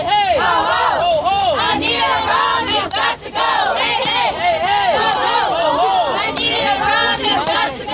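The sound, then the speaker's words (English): Protesters chant a rhythmic call-and-response while blocking West Congress Parkway in downtown Chicago, demonstrating over the police shooting of a Black teenager; many voices shout short repeated syllables in a steady pulsing pattern, loud and continuous. “That was the sound of protesters in Chicago Tuesday, as they blocked off West Congress Parkway in downtown”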